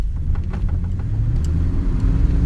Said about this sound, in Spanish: Pero no hay ruta, así que estamos manejando sobre dunas de arena, Carlos insiste